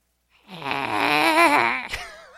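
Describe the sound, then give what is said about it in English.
A voice performs an exaggerated exhale, a drawn-out, gurgling, wavering throat sound that swells after a short silence, holds for over a second, then ends in a brief rasp. “Could you please do one more of those embarrassing Gollum exhales you mentioned in your gym story yesterday?”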